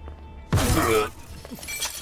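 A hidden camera is smashed and broken with a sudden loud crash of shattering material, a single sharp burst followed by fainter rattling debris.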